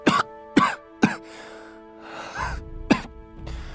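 A man coughs four times in short, sharp bursts, choking on dust and smoke after an explosion. A steady tonal drone and some rustling noise run beneath the coughs.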